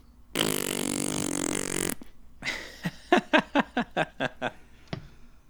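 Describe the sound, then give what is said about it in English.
A fart: one long, loud, buzzing blast, then a brief pause, then a run of many short, sputtering bursts that fade out toward the end. “On that crappy note. That was a fart.”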